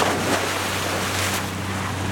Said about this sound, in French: Il a l'air de faire des grosses vagues, celui-là. Tu m'excuses, Denis. Je n'ai jamais su dire non à un bateau à moteur.